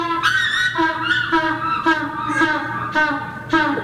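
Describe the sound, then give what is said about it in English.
A very hungry African penguin at the New England Aquarium in Boston gives repeated loud, braying honks in a steady rhythm, each call a bright, harmonic, nasal burst. “That is the sound of a very hungry African penguin at the New England Aquarium in Boston.”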